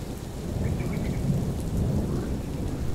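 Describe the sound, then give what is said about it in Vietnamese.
Thunderstorm with rain at night in wind: steady, loud rain hiss over deep rumbling thunder that runs through the whole stretch, with no voices. “Một mình lầm lũi bước đi giữa trời mưa gió, thân hình gầy gò của ông Thẩm nhanh chóng bị màn đêm nuốt trọn. Phía trên đầu ông, thi thoảng những tia sét lằng nhằng lại rạch ngang bầu trời sáng rực đánh xuống.”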